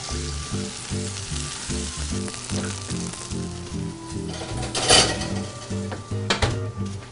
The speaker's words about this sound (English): So now that we have our tomatoes nicely fried in our olive oil